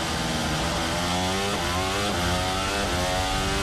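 A Formula 1 car accelerates during the first free practice session of the 2026 Spanish Grand Prix, a loud, piercing engine whine whose pitch climbs repeatedly, broken by a few quick gear shifts, with no pause in the roar.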